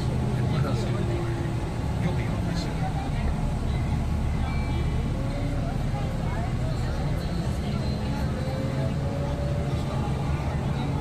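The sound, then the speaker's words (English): Dump trucks working on a road, their engines making a steady, loud low rumble that fills the whole stretch while people talk over it. “see them working on the road out there? Look at the dump trucks behind you. They're working on the road right there.”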